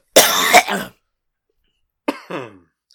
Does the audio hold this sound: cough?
yes